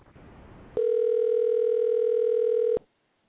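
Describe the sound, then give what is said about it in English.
Steady telephone dial tone heard while a caller is dialed. It is a single unbroken, loud hum that runs for about two seconds, then cuts off abruptly, with a little faint noise before it starts. “Can you dial directly to him somehow? Dialing right now.”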